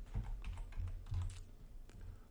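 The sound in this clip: Typing on a computer keyboard during an online lesson, a faint run of quick, irregular key clicks with a few louder taps, with no talk.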